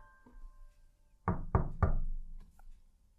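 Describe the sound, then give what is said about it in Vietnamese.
Hard knocking on a door: three loud, heavy thuds in quick, even succession, each booming and sharp-edged, followed by quiet. “Gõ muốn sập cái cửa mà vẫn không nghe một tiếng động.”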